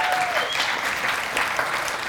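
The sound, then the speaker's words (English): A church audience applauding at an Easter morning service, dense steady clapping sustained from start to end without a pause. “Go ahead. You can clap. That's all right.”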